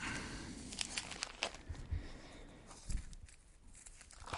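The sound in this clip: Newspaper pages being turned, with soft crinkling, crackly paper rustles that come in many irregular bursts, heard alone without any voices.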